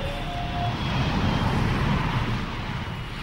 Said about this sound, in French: Je regardais par le hublot pour tenter d'apercevoir l'océan dès que notre avion quitta le tarmac.